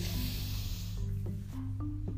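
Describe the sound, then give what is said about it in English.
A deep breath drawn in, heard as a soft airy hiss that fades over about a second, with sustained low musical tones underneath throughout. “Now let's take some time before you head off the podcast to do some deep breaths. Breathe in.”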